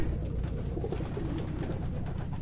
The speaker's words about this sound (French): Ils sont là, comme moi, c'est tout. Je sais pas pourquoi, j'ai toujours l'impression que c'est des exilés, les pigeons.